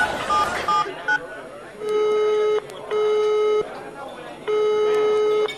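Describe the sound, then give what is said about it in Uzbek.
A telephone number is dialed as a few short electronic key tones sound, followed by three long, steady ringing tones separated by brief pauses. “Xohlagan raqam teramiz.”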